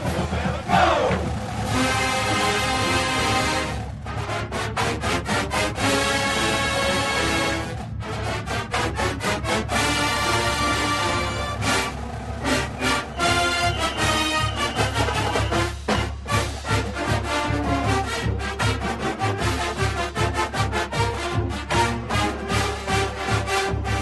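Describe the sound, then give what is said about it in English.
University of Alabama Million Dollar Band, a marching band, playing loud, dense, continuous music with a steady driving rhythm, with no talk. “Oh, the great sound of the Million Dollar Band from the University of Alabama.”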